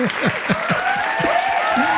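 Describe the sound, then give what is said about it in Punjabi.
Applause for a professor, steady dense clapping that stays loud and even throughout the short stretch. “Professor ਸਾਹਿਬ ਵਾਸਤੇ ਤਾੜੀਆਂ ਹੋ ਜਾਂਦੀਆਂ”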